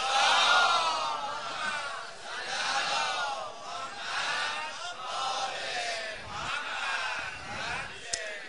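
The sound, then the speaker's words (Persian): Crowd reciting salawat in unison: many voices blend into a continuous, gently swelling chorus that rises and falls at a moderate level without breaks. “نمیخواد دست گلماتشون هدیه کنید بهشون یه صلوات بفرستید؟”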